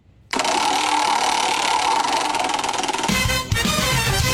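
A prize wheel spins with a fast, dense run of ticking that starts abruptly and holds loud and even for about three seconds, then cuts off into a lower, rougher rumble.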